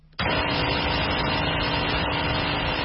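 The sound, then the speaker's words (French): A generator powers the flour mill of a bakery in Obili, a district of Yaoundé. Its loud, steady engine drone kicks in after a brief quiet moment and holds unchanged throughout. “Un générateur alimente le moulin à farine de la boulangerie Obili, un quartier de Yaoundé.”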